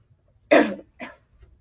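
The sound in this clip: Throat clearing from a man with a tickle in his throat: a loud, harsh burst, then a shorter rasp and a faint third catch, with no talk.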